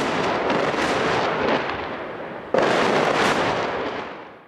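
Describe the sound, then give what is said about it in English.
Dense, continuous roar of gunfire and blasts from a firefight in Fallujah, with insurgent RPG and mortar fire and airstrikes on buildings; one sharp, loud burst arrives midway, and the barrage then slowly fades. “This is a firefight I watched in Fallujah. Insurgents fired RPGs and mortars. Americans took out buildings with airstrikes.”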